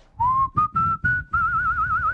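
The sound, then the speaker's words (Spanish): A person whistles a short tune: a few brief notes stepping upward in pitch, then a long held note with a rapid wavering vibrato, loud and clear with no talk. “¿puedes chiflar, por favor?”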